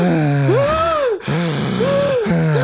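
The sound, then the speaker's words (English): Improvised breathing exercise made with the voice: a few gasping, groaning breaths, each pitched tone swooping up and then sliding down, separated by brief pauses. “Should we do an improvisational bit of breath work?”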